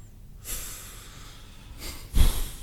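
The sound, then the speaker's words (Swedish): Heavy huffing and puffing breaths in two breathy, hissing bursts: a softer one near the start and a louder, snort-like one toward the end, with quiet gaps and no talk. “Pust och stånk.”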